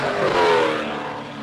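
A trophy truck racing down the straight at a desert race, heard as a loud, sustained engine roar with a harsh, broad rushing tone that eases slightly toward the end, with no voices.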